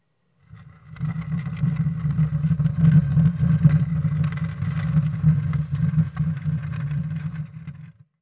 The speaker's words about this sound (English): some weird mechanism in the mermaid statue. I can probably trigger that. all this old machinery hates when you ghost it up inside the gears and whatnot.